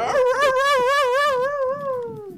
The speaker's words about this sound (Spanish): Va a venir bienestar animal por nosotros, ¿no van a creer que está la perrera por acá? Se parece loba, no parece